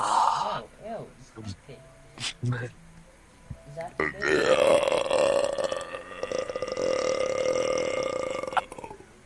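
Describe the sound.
A loud belch, like one after a very gassy drink, stretches over several seconds with a rough, throaty, gurgling resonance. Shorter vocal noises come before it.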